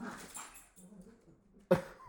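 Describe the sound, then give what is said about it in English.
Dogs attacking each other at home: low scuffling and whimpering yips, then one sudden loud yelp or snarl burst near the end. “my dogs just attack each other.”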